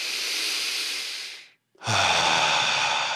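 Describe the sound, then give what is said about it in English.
Two long clearing breaths during a guided stress-relief breathing exercise: a soft airy hiss, a brief silent pause, then a second fuller breath with a faint voiced sigh in it. “Just take a couple clearing breaths in through your nose, out through your mouth.”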